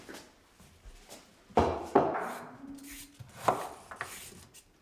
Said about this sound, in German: Ich schneide die Zwiebeln ganz fein für die Frikadellen. Jetzt schälen wir die Möhren.